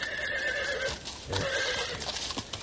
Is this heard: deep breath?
no